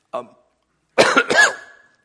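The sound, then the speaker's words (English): A man coughs during a sermon: one short cough, then after a pause a longer, harsher burst of several coughs that trails off. “Not just with me coughing here”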